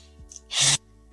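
A deep, sharp intake of breath, heard as a single short, rushing burst of air in a brief pause between remarks.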